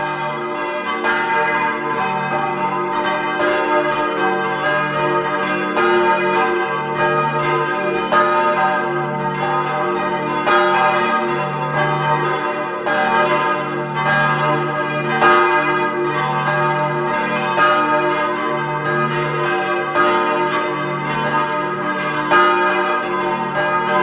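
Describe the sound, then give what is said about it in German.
Church bells of Mariä Unbefleckte Empfängnis in Blons, Vorarlberg, ring at noon, many overlapping strokes pealing steadily with a rich, sustained hum throughout. “Es ist 12 Uhr. Sie hören die Glocken der Kirche Mariä Unbefleckte Empfängnis in Blons in Vorarlberg.”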